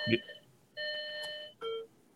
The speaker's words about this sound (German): Oh, jetzt hat es geläutet. Wo hat es geläutet? Bei wem? Bei mir.